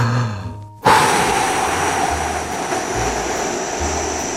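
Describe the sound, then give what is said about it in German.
A forceful exhale from a man lying on the floor: a sudden, loud, breathy rush of air that starts abruptly and holds steady for several seconds, with no talking. “Jetzt kräftig ausatmen.”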